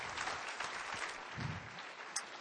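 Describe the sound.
Audience applause welcoming a speaker to the stage: a steady, dense wash of clapping that holds at an even level throughout, with no voices over it.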